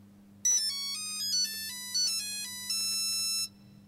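A phone ringtone plays a short melody of bright electronic notes that step between pitches for about three seconds over a low, steady hum, then stops.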